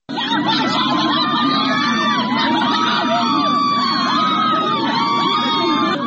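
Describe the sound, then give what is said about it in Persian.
Villagers from Chenar Mahmoudi protest outside the Lordegan governor's office, a dense crowd shouting, whooping and yelling continuously, with loud, overlapping voices and no pause throughout. “این صدای معترضانی است که در روستای چنار محمودی، یکی از روستاهای شهرستان لردگان در استان چهارمحال و بختیاری در مقابل فرمانداری لردگان تجمع کردند.”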